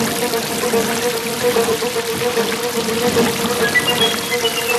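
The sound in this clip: Heavy rain pours down through a forest after dark, a steady, dense hiss and wash of falling water that stays continuous and even in loudness throughout, with no voices.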